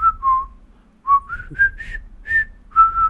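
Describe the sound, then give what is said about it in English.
A man whistling a World War II-era tune, clear pure notes in two short melodic phrases separated by a brief pause, steady and fairly loud with no talk. “he's also been whistling. He's been just going,”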